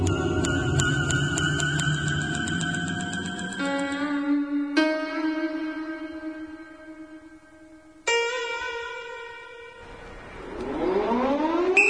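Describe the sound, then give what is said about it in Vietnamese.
A prison camp alarm siren wails in long, sustained harmonic tones that step between pitches, drops briefly near the middle, then resumes and climbs upward in pitch toward the end, loud and steady throughout. “còi báo động trong trại hú lên từng hồi”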